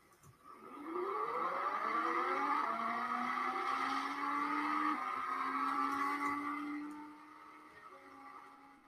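A car engine accelerates in a racing video game, its harmonic whine climbing quickly in pitch and then holding a loud, steady high drone for several seconds before easing off toward the end.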